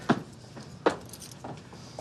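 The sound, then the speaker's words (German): Keys being laid on a table in the closing scene of a TV series as friends leave their shared apartment: two distinct metallic clinks, then a softer third, over faint background noise. “Wenn in der allerletzten Szene alle Freunde ihre Schlüssel auf den Tisch legen und die Wohnung, die ein Raum des geteilten Lebens war, verlassen.”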